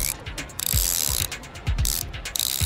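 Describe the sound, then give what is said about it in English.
A socket wrench ratchets in several quick strokes, each a burst of rapid, crisp metallic clicks of the pawl, separated by short pauses and heard alone. “Is it a socket wrench?”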